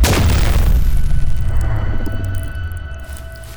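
A sci-fi blaster pistol fires at point-blank range against a head: one loud burst with a falling high-pitched whine, trailing off into a long, low rumbling decay.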